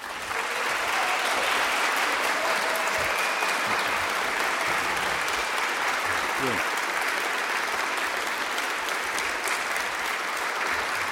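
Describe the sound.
Long, steady audience applause in a public library greeting Ralph Nader for a book talk, a dense, even roar of clapping that holds its level throughout.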